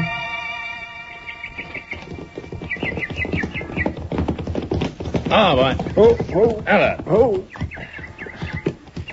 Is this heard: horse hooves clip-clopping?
yes